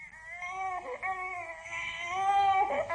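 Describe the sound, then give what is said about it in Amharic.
An infant, a baby found in a basket, cries nonstop with a strained, tonal wail that swells and wavers and grows louder toward the end. “ብጣዕሚ በኪ ስለ ዝነበረ ድማ ኣዝዩ ሓዘነትሉ።”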